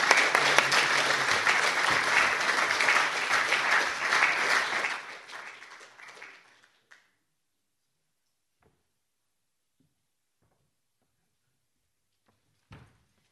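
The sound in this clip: An audience applauds to welcome poets at a poetry reading celebrating Martin Luther King: dense, steady clapping for about five seconds that tapers off and dies out near seven seconds, followed by near silence.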